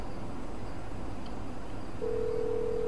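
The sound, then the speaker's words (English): A phone tone sounds as a character dials a call in a video game. A single flat, steady tone enters late and holds over a constant noisy game background, with no talking. “And let's dial the call.”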